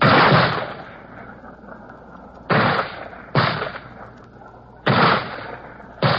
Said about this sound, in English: And behind them, the men with mortars, lobbing in their shells.